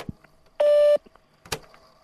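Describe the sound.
A voicemail recording tone: a single short, steady electronic beep lasting under half a second, with a few faint clicks before and after it.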